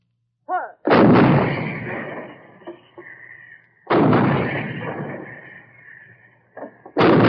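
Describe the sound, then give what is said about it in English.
Heavy booms of 155 mm artillery guns shelling enemy positions: three loud, sharp blasts spaced a few seconds apart, each followed by a long rolling rumble that slowly decays. “On the way up to the front, they walk past the 155 guns, shelling enemy installations.”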